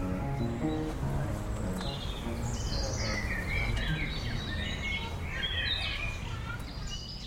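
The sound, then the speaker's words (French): Birds chirp and sing in faint, scattered high twitters over a constant low background rumble, with no clear pauses. “et sous le pépiment des oiseaux.”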